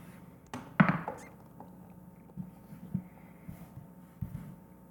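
Dice rolled onto a table during a tabletop role-playing game attack: one sharp thunk, then a few faint taps and knocks as they settle.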